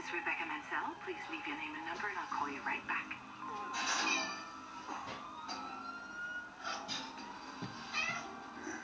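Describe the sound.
A cat meows several times with a high, wavering pitch, alongside voices and other background sound.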